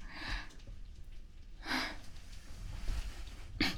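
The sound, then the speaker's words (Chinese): Choking coughs and gasping breaths from someone who breathed too fast out of nervousness: a few sharp, breathy bursts separated by stretches of heavy, noisy breathing. “然后呼吸太快就呛到了”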